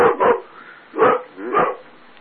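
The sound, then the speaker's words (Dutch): A dog barks four times, sharp and loud with nothing else heard: two quick barks close together, then two more spaced further apart. “Ja, de hond gaat af.”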